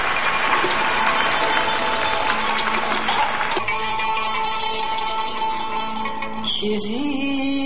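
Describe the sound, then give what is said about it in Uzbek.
Audience applause at a concert before a duet, a dense, steady clatter of clapping for about three and a half seconds before sustained orchestral tones take over. “Bitta qarsaklar bilan parda ochamiz.”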